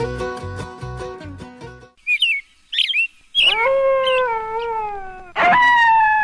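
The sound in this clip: Coyote calls: a few short, high yips followed by long, wavering howls rich in harmonics. The howls are loud and clear with no talk over them, and the first one holds steady before slowly sagging in pitch.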